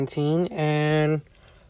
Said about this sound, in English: excuse that long ass extended yawn